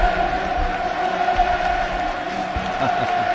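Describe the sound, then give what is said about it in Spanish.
A crowd of about 45,000 football fans at the Vicente Calderón stadium roars as they stay on to bid farewell to their team, a dense, steady wash of cheering and voices with no breaks throughout. “¡Qué locura! Se han quedado prácticamente 45.000 para despedir al equipo.”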